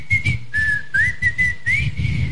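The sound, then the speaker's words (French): A person whistles a short tune in several breathy phrases at a fairly high pitch, each phrase separated by brief pauses, with low rumbling noise underneath. “essayez de siffler en louchant. C'est très très compliqué, voilà.”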